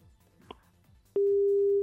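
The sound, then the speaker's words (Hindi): A telephone tone after a dropped call: one steady mid-pitched tone starts abruptly and holds to the end, following a stretch of faint background noise. “जी लगता है संपर्क टूट चुका है।”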